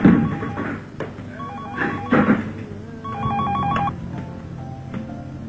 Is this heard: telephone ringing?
yes

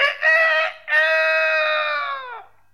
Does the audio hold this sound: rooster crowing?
yes

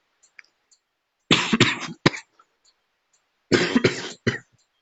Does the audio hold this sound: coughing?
yes

